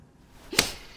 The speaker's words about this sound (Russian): Дает ей пощечину.